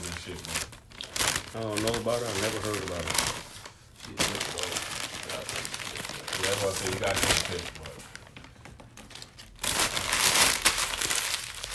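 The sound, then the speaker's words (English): A paper bag is crumpled and crinkled in several loud bursts of crackling rustle, with people talking between and under the crinkles. “The modern sound of the paper bag, you know what I'm saying?”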